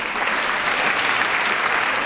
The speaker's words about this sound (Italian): Sono lieta dell'applauso.